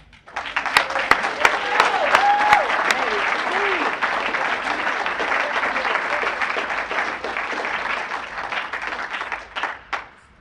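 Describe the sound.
Audience applause welcomes a speaker: sustained, dense clapping that rises quickly, holds for about nine seconds, then thins out and fades near the end.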